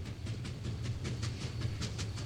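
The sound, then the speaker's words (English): An Amtrak train leaving a station platform, running late with a mechanical problem: a steady low rumble with a quick, regular run of hissing clicks riding over it at a moderate level. “Everyone stand away from the yellow line on the platform as the train leaves the station.”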